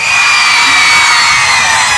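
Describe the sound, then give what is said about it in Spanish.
Women shout together in unison on a count of three, a loud, sustained, dense burst of massed voices that holds steady for about two seconds. “a la cuenta de tres entonces, el grito de todas las mujeres.”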